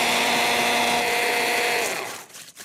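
An electric chopper grinds hazelnuts to powder with a loud, steady, high whirring drone for about two seconds, then winds down and cuts off.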